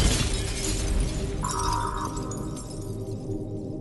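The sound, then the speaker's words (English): Shattering crash of a glass window being smashed: a dense, noisy burst that holds steady throughout, with a brief ringing tone partway through. “That's the noise I want to make to the window. Smash it open”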